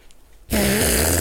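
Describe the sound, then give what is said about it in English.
A fake fart made with an armpit starts abruptly partway in. It becomes a loud, sustained, low buzzing blurt that continues steadily to the end. “Who farted?”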